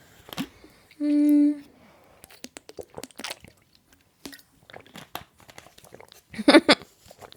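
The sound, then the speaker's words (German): Someone takes a drink during a pause in talking: a brief tonal squeak followed by scattered faint sips, small gulps and mouth clicks, intermittent and quiet. “Ich muss auch was dazwischen trinken, weil mir meine Stimme bald versagt.”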